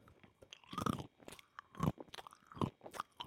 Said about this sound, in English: that peanut ASMR